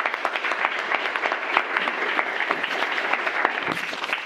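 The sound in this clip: Audience applause welcoming a speaker to a debate, dense steady clapping that holds at an even loudness throughout.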